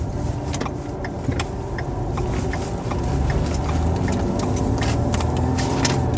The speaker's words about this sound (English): It is 8:42 p.m. and we are leaving the gas station parking lot, turning right onto Black Lane.